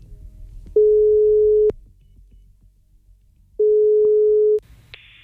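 Telephone call tones: two long, steady, mid-pitched ringing tones of about a second each, separated by a pause, followed by a brief higher beep at the end.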